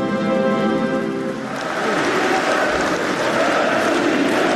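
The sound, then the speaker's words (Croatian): Hundreds of Kremlin officials applauding at an annexation signing ceremony: a brief voice gives way to a loud, dense, continuous roar of clapping that stays level to the end. “Zvaničnu ceremoniju potpisivanja pratio je aplauz stotina čelnika Kremlja koji su prisustvovali događaju, kao i uzvici Rusija, Rusija.”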